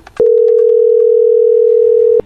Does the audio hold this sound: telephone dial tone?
yes

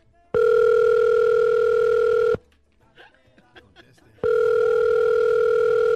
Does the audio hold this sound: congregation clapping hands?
no

